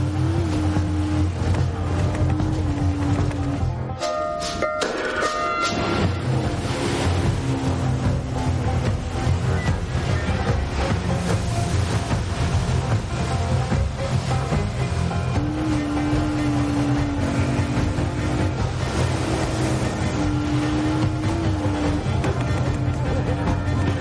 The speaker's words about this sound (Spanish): Tyler arranca y se aleja. La lancha de Duncan va tras él.